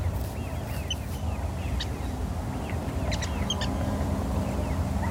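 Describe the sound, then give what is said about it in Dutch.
A water rail calls softly from a reed bed along a sea dike in a polder, giving scattered faint squeaky notes over a steady low background rumble. “Het is een waterral. Zo'n waterral kan krijsen als een big, maar dus ook subtielere geluiden maken”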